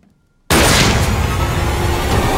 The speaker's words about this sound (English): Oh, Jesus. You shot the maid.